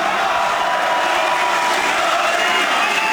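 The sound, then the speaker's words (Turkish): A packed hall at an AK Party political rally roars with cheering, a dense, loud, unbroken wash of crowd voices that stays steady throughout. “Salonda coşku had safhadaydı. Başkan Erdoğan kürsüye çıktı. Konuşması sık sık tezahüratlarla kesildi.”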